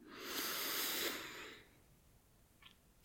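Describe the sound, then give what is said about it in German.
Deep breathing during a relaxation exercise, in through the nose and out through the mouth: one long, soft, airy breath lasting about a second, followed by near-silence with a few faint small noises. “dann atme dreimal tief ein und aus. Durch die Nase ein”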